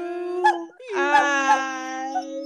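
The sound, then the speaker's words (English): A dog howls along to a birthday song. It holds a wavering, tonal howl for about two and a half seconds, with a brief dip in the middle and a few short, sharp yelps. “I feel like he barked more than he sang that time. Normally he's more of a singer than a barker”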